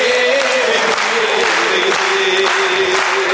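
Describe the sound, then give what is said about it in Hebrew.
An audience applauds, a loud, dense patter of many hands that carries on without a break, with a sustained tone running beneath it. “כפיים”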